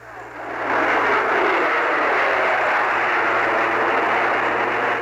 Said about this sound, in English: excessive jet noise. Upon the plane's takeoff from London's Heathrow Airport, an anti-noise group less than a mile from the runway in the village of Stanwell Moor monitored the sound.